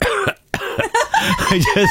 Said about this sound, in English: He gets up of a morning, has a bit of a cough. He's got to clean his pipes.